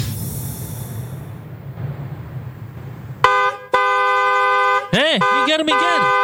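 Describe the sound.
A car horn blares in long, sustained, bright blasts with a couple of brief breaks, after a stretch of low traffic rumble. Near the end, a voice speaks over the horn.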